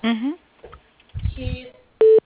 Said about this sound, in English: Hang on one second. I'll put you through, okay?